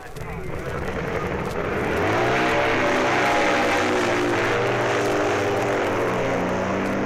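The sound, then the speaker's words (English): BMW racing motorcycles set off from the start of a race. Their engines make a loud, sustained roar that swells after the first couple of seconds and then holds steady. “And after the usual warm-up period, first away with their BMWs, Barry Dunworth and George Arbacher.”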